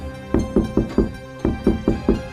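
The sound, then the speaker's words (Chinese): Knocking on a door, eight firm knocks in two quick groups of four separated by a short pause, each rap sharp and evenly spaced. “当祭司长跟律法教师正在商量该怎么样除掉耶稣的时候，突然间有人敲门”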